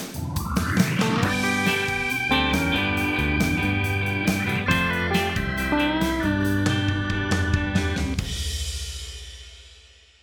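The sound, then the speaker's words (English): A short instrumental theme song with a steady beat and layered melodic parts plays loudly throughout, then stops near the end and leaves a ringing tail that fades out. “But if I were to go with this new theme song, I've also got a shorter version that sounds like this.”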